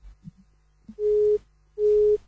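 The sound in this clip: Disconnected phone line tone after a call-in caller drops: two loud, steady mid-pitched beeps of equal length with a short gap between them, preceded by a few faint clicks.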